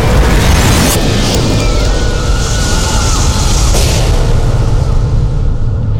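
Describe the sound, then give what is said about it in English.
A nuclear explosion roars as a loud, sustained, rumbling blast that holds a steady, heavy wall of noise with no pause for several seconds. “All of this ended in a flash of nuclear fire.”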